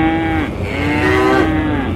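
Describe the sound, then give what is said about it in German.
Cows moo in long, loud, low calls, with two or three drawn-out lowing cries following closely one after another and overlapping slightly. “Auf dem Weg sehen sie Kühe”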